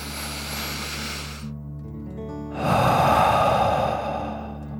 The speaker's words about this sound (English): out through your mouth, imagining you are breathing fire like a dragon. Ready? Deep breath in and out.